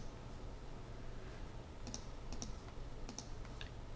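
Typing on a computer keyboard while working in image-editing software: a few faint, scattered key clicks over a steady low background hum, with no talk.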